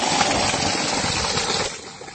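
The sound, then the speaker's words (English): A borewell pump supplying water for people: a loud, steady rush of gushing water blends with motor hum, and the level drops somewhat near the end. “you can see the borewell that we have put here, and it's giving water for the people.”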